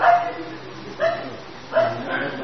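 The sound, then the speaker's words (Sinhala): A dog barking, heard as a few short, sharp barks at uneven intervals against a faint background. “අපිට බල්ලෙක් පේනවද දැන්? නැහැ. ශබ්දය ඇහෙනවා විතරයි.”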